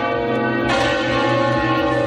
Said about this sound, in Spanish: La campana, digo que pesa 1.500 kilos porque eso es solamente el bronce.